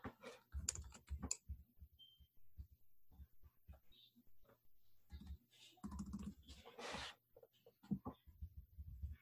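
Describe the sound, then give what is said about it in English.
Quiet typing on a computer keyboard, with short irregular bursts of soft key taps and brief pauses between them. No talking. “I'm gonna type this one here, okay?”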